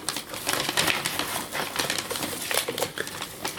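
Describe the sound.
Paper tearing and crinkling while a present is unwrapped: a steady run of dry, rustling rips and crackles at moderate loudness, with no voices.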